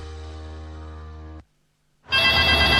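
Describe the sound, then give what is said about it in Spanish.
An apartment intercom buzzing with one harsh, steady electric tone lasting over a second, then a short silence followed by a loud burst of hissing noise. “¡Contesta tu citófono, po, que estoy ocupada!”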